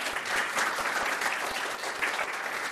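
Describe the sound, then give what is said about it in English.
An audience gives a round of applause to a panel guest at a talk, a dense and steady wash of many hands clapping that holds evenly throughout with no voices over it. “And I'd love to open up an opportunity to give Susan a round of applause too.”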